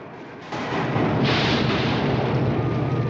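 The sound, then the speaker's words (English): A film explosion blasts a crater in a road and strikes a transmitter tower, producing a dense, continuous rumbling roar that jumps in loudness early on and sustains heavily to the end. “Suddenly, an explosion stops them, and another blows a crater in the road that the truck falls into. An explosion hits the transmitter tower, which breaks and tumbles onto the rooftop.”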